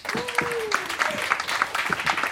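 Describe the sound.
An audience claps for a competitor, Heather, as she steps up to the mic in a round-two competition. The clapping is brisk and continuous at moderate loudness, with a few sharper individual claps standing out.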